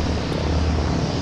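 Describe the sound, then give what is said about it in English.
Loud, steady engine drone of a World War II C-47 transport plane arriving at an airport ahead of an air show: a continuous low rumble with a broad roar over it, no talk, holding level throughout. “That's the sound of a World War II C-47 transport plane arriving at Camarillo Airport.”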